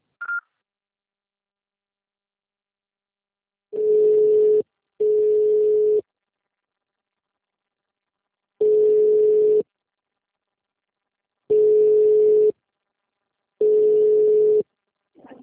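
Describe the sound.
Five flat, steady telephone tones follow a voicemail message. Each lasts about a second at one unchanging pitch. The first two come close together, and the later ones are separated by longer silences.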